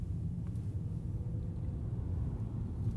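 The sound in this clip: A car drives on a half-hour trip near Eidsvoll, Norway, producing a faint, steady low rumble of engine and road noise that stays even throughout, with no talk over it.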